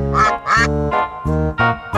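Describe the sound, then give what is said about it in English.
A duck quacks in a quick series of loud, nasal, buzzy calls, each with short gaps between them, the last one cut off at the end. “But the one little duck with a feather in his back, he led the others with a quack, quack, quack.”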